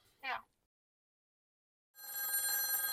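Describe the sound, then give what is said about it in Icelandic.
Telephone ringing at a hospital in Patreksfjörður, Iceland: after a brief sound and a long silence, a bright, steady electronic ring starts and continues to the end. “síminn hringir á sjúkrahúsinu á Patreksfirði”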